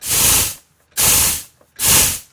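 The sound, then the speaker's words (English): A SodaStream carbonating water in its special bottle gives three strong hissing bursts of pressurized gas, each about half a second long, separated by short quiet gaps. “Ah, what does that sound like? Air, right? Well, that's actually something called SodaStream.”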